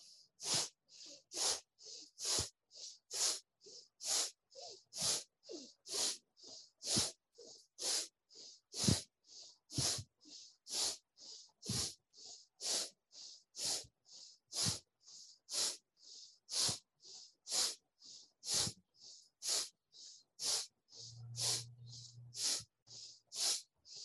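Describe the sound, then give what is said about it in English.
Kapalabhati breathing exercise from a pranayama practice: forceful, hissing nasal exhalations snap out one after another in a steady, roughly once-per-second rhythm, each short and sharp with near silence between, sustained throughout. “Create the concave belly and bring the mind below the navel. And from that space, now let's work 50 rounds of Kapalabhati.”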